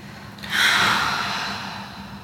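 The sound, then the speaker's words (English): A deep breath during a guided relaxation exercise, in through the nose and out the mouth: one long, soft, airy rush that swells quickly and then slowly tapers off, with no talking. “let's take another deep breath through the nose and out the mouth”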